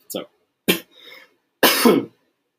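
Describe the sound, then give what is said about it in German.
Three harsh coughs from someone with a cough lingering after Covid, separated by silence. The last cough is longer, with a doubled push. “Deswegen mir hängt aber leider noch ein Husten nach.”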